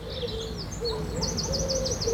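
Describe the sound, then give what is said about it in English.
Birdsong of a dawn chorus of blackbirds, robins, wrens, thrushes and finches: many overlapping high chirps and whistled phrases, rising to a busier, slightly louder stretch of repeated notes, with a steady lower hum underneath. “If you get up at 4:30 this morning, you'll be able to hear all those lovely birds, the blackbirds, the robins, the wrens, thrushes and finches. They're the ones who start the dawn chorus.”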